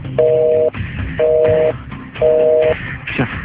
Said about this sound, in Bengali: line busy busy busy, এত রাতে line কেন বারবার বিজি দেখাচ্ছে